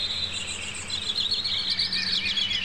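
Birds chirp and tweet continuously, many high bright calls overlapping in a busy chorus above a low, steady humming tone.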